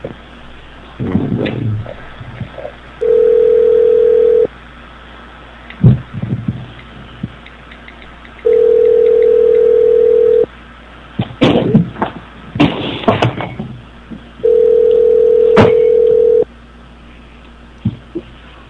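A telephone plays three steady, long, mid-pitched tones, each lasting about two seconds and separated by gaps filled with knocks, rustles and handling noise.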